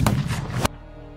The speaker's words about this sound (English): As he did, he aimed just above Burr and pulled the trigger.